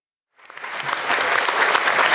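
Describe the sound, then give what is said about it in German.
Applause breaks out after a moment of silence and quickly builds into steady, dense clapping from many hands, lasting to the end. “Weiter Applaus.”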